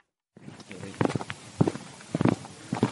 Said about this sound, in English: walks to the farm to confer with his staff.